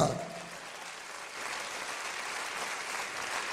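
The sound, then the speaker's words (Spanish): Faint, steady audience applause during an evening church service, an even wash of many hands clapping that holds through the whole clip, with a voice briefly audible at the very start. “Dele un aplauso a Jesús”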